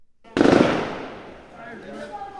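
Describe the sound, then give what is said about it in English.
Gunfire during riots in Port-au-Prince, Haiti: one sharp, loud burst that rings and slowly fades, with a voice entering as the echo dies away. “Gunshots ring out in the Haitian capital”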